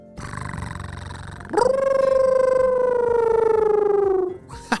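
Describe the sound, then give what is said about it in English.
A voice imitates an imaginary wolf-cat creature, first with a low rough purring rumble, then with a long, loud, steady howl that slowly sinks in pitch before cutting off. “It purrs like a cat, and then howls like a wolf. And then you combine the two to make a wolf cat sound.”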